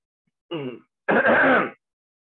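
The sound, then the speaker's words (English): A man clears his throat twice, first a short rasp, then a longer, louder, gravelly clear, each alone against silence. “seems to have something in his throat”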